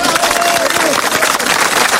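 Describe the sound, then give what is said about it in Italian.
Applause from a crowd, a dense, unbroken wash of many hands clapping that stays loud and even for the whole two seconds. “Tac! Applauso!”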